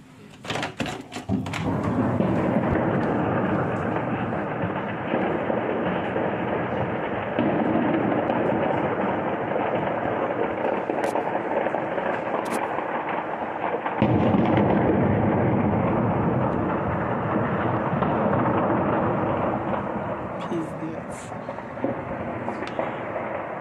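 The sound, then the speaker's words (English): Bombs exploding during heavy combat near Kyiv make a continuous, deep, roaring rumble. The heavy barrage swells and settles, with a few sharper cracks breaking through. “Look how many bombs are going off.”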